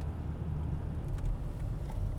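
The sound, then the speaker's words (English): A car slowing down as it turns onto a dirt road, heard as a faint, steady low engine rumble with light rattles over the top. “We're driving into Willow Well. There we go. We're slowing down. We're going to get onto this dirt road.”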